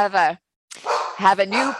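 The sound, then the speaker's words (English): A small, one-year-old therapy dog in training barks, giving a few sharp, high-pitched yaps in quick succession with a short pause after the first. “I have two therapy dogs that work in my practice. One is 14 and super chill, and she knows to be quiet. And we have a little therapy dog in training who's just one”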